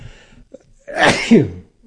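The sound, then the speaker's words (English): A single loud sneeze: a faint intake of breath comes first, then a sharp, forceful burst that fades quickly into silence. “I had to sneeze.”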